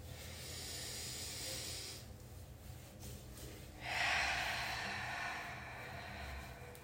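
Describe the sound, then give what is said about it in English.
A deep breath in and out, taken during a guided moment of morning stillness. It sounds as two long, airy, hissing breaths separated by a short quieter gap, the second louder and brighter, with no talking. “Let's take a moment of stillness real quick. So, let's just take a deep breath.”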